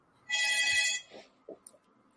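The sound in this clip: A telephone rings for an incoming call, giving one loud, bright electronic trill that stops abruptly, followed by a few faint small clicks and rustles.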